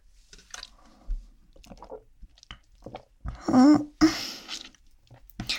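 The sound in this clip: Sips and slurps of a shop's homemade steeped drink: a few short, wet mouth sounds separated by quiet gaps, with one louder, longer slurp near the middle.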